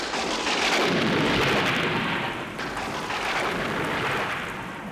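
Heavy rain pours down with thunder: a loud, dense hiss over a deep, rolling rumble that swells early and then eases a little, with no voices.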